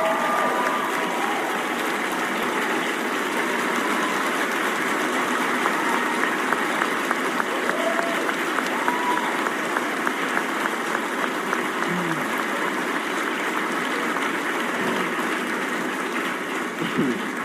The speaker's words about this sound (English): So MJ, please stand up and let's give her the ovation that she deserves to hear.